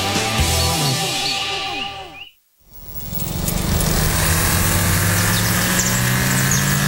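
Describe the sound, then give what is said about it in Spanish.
Engine sound from an Audi Q5 2.0 TFSI mild hybrid: a loud, steady hum with a whining tone, then a brief drop to near silence, then a broader, rougher roar that holds to the end. “El nuevo Audi Q5, con motor 2.0 TFSI Mild Hybrid, fluye con precisión y eficiencia.”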